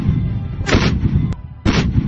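An artillery gun firing: heavy booming blasts, two strong bursts about a second apart over a constant low rumble, with no voices.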